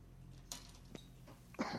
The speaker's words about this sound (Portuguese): Tá tossindo também, ó.